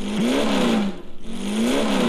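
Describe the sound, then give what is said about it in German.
A Porsche 908 race car engine roars loudly, its pitch climbing as it revs. It dips and sputters briefly midway, then climbs again in another strong, rising surge. “ist der Porsche 908.”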